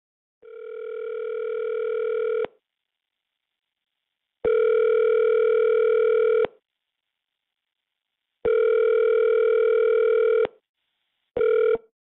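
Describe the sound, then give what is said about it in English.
A telephone tone on a phone line, heard while reaching voicemail: a steady electronic tone sounding in four bursts. Three last about two seconds each with even pauses between them, and a short fourth burst cuts in at the end. “At the tone, please record your message. When you have finished recording, simply hang.”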